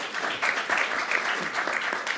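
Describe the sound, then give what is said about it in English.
Applause from an audience after a speech on democracy and freedoms, with steady, lively clapping that holds at a fairly even level with slight swells. “Okay, I'm not going to stop you clapping. Not this time.”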